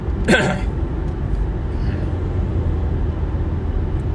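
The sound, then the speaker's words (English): Steady low road rumble inside a moving car, a constant droning hum with a brief vocal sound near the start. “Gosh, what a drive. Anyway, I think I'm like on hour 6 of driving today.”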